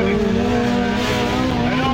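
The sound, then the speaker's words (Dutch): Race cars at an autocross event give a steady, loud engine drone with a sustained buzzing tone that holds for two seconds, while a voice talks over it. “Nou, we zijn op de autocross in Sørøsterfingen.”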